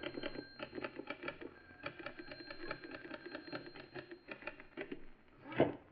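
A typewriter clatters as a script is typed for a radio adventure show. Many quick, faint keystrokes fall in uneven bursts, and a single louder thump comes near the end.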